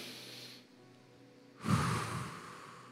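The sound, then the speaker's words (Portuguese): Congregants at a church service take a deep breath together: a soft, airy breath, a short pause, then a fuller and louder rush of breathing that fades away. The sound is quiet overall. “Fala para alguém o tema dessa mensagem assim, ó, diga assim, ó, recupere o fôlego. Faz assim, ó, dá aquela respirada.”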